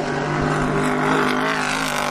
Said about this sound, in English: And that's the Corvette.